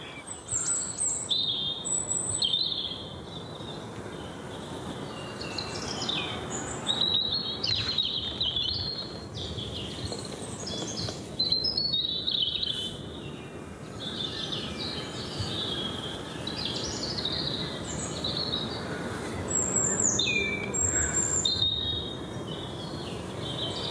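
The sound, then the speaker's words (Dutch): Robins singing: many high, thin chirps and short warbling phrases repeat throughout, overlapping one another above a steady low hiss with faint insect-like chirring. “want je hoort er één en dan nog één en dan nog één. En ineens klinken overal roodbosjes.”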